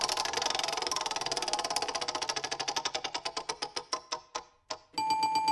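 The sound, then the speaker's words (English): Ticking of a spinning prize wheel: rapid clicks that gradually slow and spread apart as the wheel loses speed, ending with a bright ringing chime once it stops. “Are you ready, fighters? Let's spin the wheel.”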